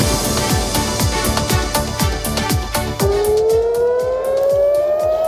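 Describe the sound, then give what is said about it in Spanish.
Air raid sirens sounding in Jerusalem and Tel Aviv: a loud, rapidly pulsing wail joined in the second half by a steady tone that slowly climbs in pitch. “Este es el sonido de las sirenas que se ha oído hace pocos minutos, que se han oído hace pocos minutos en Jerusalén y en Tel Aviv.”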